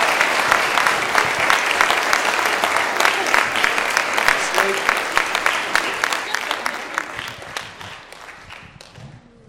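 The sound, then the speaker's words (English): Audience applause: a dense, steady wash of many hands clapping that holds at a fairly even loudness for several seconds, then thins out near the end. “ladies and gentlemen, a round of applause, please.”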